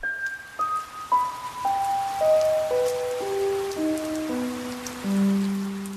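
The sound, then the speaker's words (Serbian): Rain falling as a steady, dense hiss throughout, with a descending sequence of clear tonal notes stepping down over it. “Nije joj se dopalo što pada kiša.”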